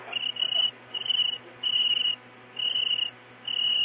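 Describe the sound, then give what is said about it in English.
A cricket chirps inside a house, making five evenly spaced bursts of high, shrill trilling. Each burst is separated by a short gap, with a faint low steady hum underneath and no voices. “Oh, listen. There's a cricket in the house.”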